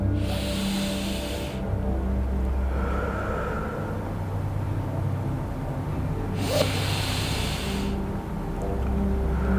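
Deep breaths drawn in, heard as a couple of long, soft, airy inhales under steady, calm background music, with no talking.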